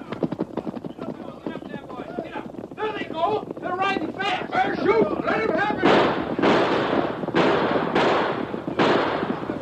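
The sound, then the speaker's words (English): Horses gallop away in a rapid, drumming patter of hoofbeats that builds and grows louder, with men calling out over the clatter. “Gallop, Tonto. We'll leave them far behind. Get them up. Come on, Silver.”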